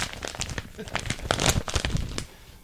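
An envelope is torn open in a quick run of crisp, crackling rips and crinkles that swell in the middle and then stop abruptly.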